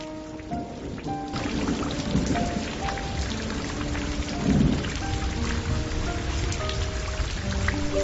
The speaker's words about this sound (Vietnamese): Gió chèn lẫn với mưa bụi ập vào mặt, lạnh như băng